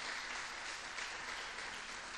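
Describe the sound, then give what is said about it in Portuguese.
Faint, steady applause from a church audience during an evening service, a dense, even patter of many hands that holds at the same low level throughout without breaks. “Aplauda Ele porque Ele é bom.”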